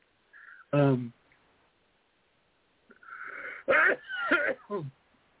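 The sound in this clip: A single sudden sneeze bursts out near the start, loud and voiced, followed after a pause by a person talking.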